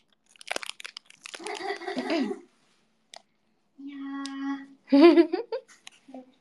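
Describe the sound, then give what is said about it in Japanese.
A financier cake's wrapper crinkles as it is opened, giving scattered then denser bursts of rustling and crackling, followed by a few brief voiced sounds from people talking. “私もフィナンシェ開けてるんだけど。それは何を食べてる？フィナンシェ。”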